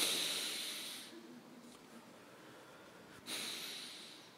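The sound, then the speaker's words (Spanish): A group takes deep breaths together during a morning Bible study class. Each breath is a long, airy hissing inhalation, and a quieter pause separates them. “Por favor, vamos a inhalar todos tres veces, bien profundo.”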